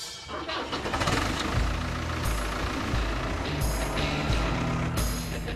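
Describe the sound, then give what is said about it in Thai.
A farm tractor's engine starts before the driver heads out to feed birds, catching and settling into a steady low rumble that carries on to the end. “เอาล่ะผมกำลังขับรถแทรกเตอร์แล้วกำลังจะออกไปให้อาหารนกนะครับ”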